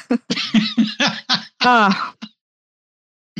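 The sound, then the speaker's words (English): Throat clearing and coughing from a person who has a cough: several rough bursts, then a longer raspy voiced stretch and a brief final catch, followed by silence. “So I got a cough.”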